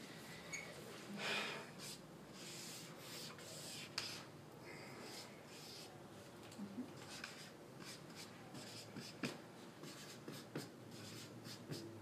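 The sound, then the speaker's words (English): Drawing a picture of a bus, heard as a steady series of scratchy strokes and rubs across a surface, with quick bursts of sketching at an irregular rhythm and faint breathing underneath. “Now, I draw a bus”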